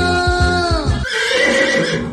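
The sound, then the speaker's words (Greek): A racehorse neighs once, a loud, quivering whinny with a pulsing start whose pitch drops near its end, followed by a rougher, noisy stretch with no speech. “Και θα έρθει πρώτο το άλογο μου.”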